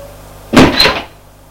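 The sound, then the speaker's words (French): A living room door being opened: one short, fairly loud burst of clattering sound lasting about half a second, alone against a quiet background. “Elle ouvre la porte et dit à Alexis”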